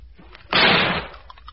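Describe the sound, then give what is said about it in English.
A single gunshot fired at a creature in a garden: one loud, broad blast that holds for about half a second before cutting off, with no talking around it. “Put your fingers in your ears. I'm going to shoot the top of it.”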